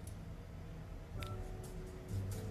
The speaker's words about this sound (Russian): Дай мне свой телефон, я такси закажу.